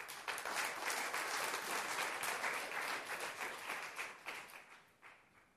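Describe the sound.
Church audience applauding to acclaim the Lord, a dense, steady patter of many hands clapping together that gradually fades toward the end.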